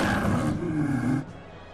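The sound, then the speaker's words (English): A creature's roar attack in a monster-battling video game: a loud, growling roar that holds for about a second, then cuts off abruptly into a quieter tail. “Full Leonidar used roar.”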